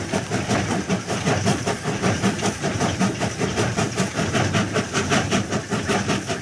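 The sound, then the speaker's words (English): A train rolls over railway tracks with a loud, continuous rumble and hiss. Rhythmic clickety-clack pulses repeat steadily throughout, with no voices. “It's a train! That's right. That's a train going over the train tracks, just like our friend said earlier.”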